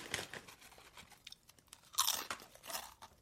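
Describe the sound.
Crunchy snack being chewed, with a few crisp, loud crunching bites separated by short, quieter chewing pauses and no talk.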